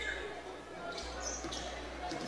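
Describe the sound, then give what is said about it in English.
A basketball being dribbled during a girls' high school game, Potosi at Fredericktown: a few dull, low bounces on the court under steady crowd and gym noise, with voices around. “Couple of dribbles, flips it over to her sister.”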